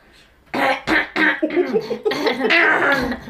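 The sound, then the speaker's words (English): A person coughs in several harsh, quick bursts that run into rough, throaty, voiced hacking, loud and close together. “I'm coughing because I'm talking too much. Mm. I'm not coughing because I'm smoking.”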